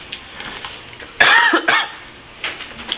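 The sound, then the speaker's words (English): A loud, harsh cough in two quick rasping bursts rises out of faint, steady background noise during a lecture. “Not to mention I'll have periodic bouts of coughing.”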